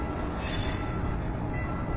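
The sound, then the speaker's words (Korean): A train rolls along railway tracks beside the site of a collapsed overpass in Seoul, producing a steady, loud rumble with a metallic rattle and a faint high squeal, and no talk. “지금 열차가 오가고 있는 것 같아요.”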